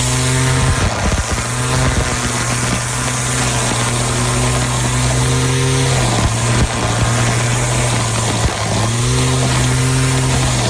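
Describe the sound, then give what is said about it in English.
Weed whacker engine running, a loud, steady, buzzing drone that holds throughout, with a few brief dips and surges in revs. “Weed whacker. Yes!”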